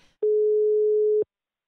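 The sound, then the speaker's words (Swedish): A single ringback tone as a telephone call is placed: one steady, mid-pitched electronic tone lasting about a second, heard alone with silence after. “Jag kommer nu ringa upp världens coolaste babymama, Aida.”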